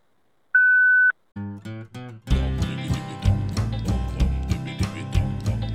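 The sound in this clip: A voicemail beep sounds as one steady, high, loud tone lasting about half a second, then a few low notes lead into rhythmic instrumental music.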